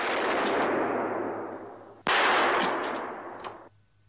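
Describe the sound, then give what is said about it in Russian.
Gunshots fired at a shooting gallery: two loud, sharp blasts about two seconds apart, each followed by a long fading tail, with a few faint metallic clicks near the end. “стреляет в тире”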